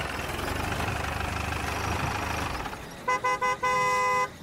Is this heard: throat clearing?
no

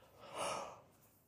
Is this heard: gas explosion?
no

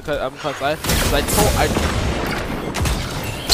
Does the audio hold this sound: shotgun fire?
yes

